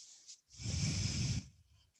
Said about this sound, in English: Bow forward, breathe out.